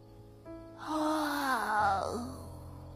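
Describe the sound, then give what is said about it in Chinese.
A small child gives a long yawn: a drawn-out voiced moan over breathy noise that swells, wavers, and then drops away at the end. “这时，小四子的一声哈欠声将陷入沉思之中的众人都拉了回来。”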